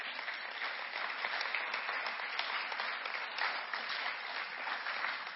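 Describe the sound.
A church audience applauds to welcome a speaker at a service: a continuous, even bed of many hands clapping at moderate loudness, with no voices standing out.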